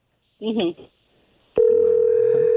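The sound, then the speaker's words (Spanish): A telephone tone sounds as a phone is dialed: after a short burst of speech and a pause, a loud, steady, unbroken tone starts and holds to the end. “Ahí va, marcando.”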